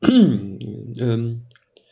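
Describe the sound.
A voiced throat clearing from someone with a frog in the throat: two drawn-out, tonal pushes, the first starting higher and sliding down, the second lower and steadier, followed by silence.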